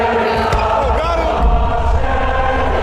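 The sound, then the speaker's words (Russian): Basketball fans at a USA versus USSR game rise to their feet and sing, a dense, loud, steady wash of massed voices with held sung tones throughout. “Болельщики встали, поют.”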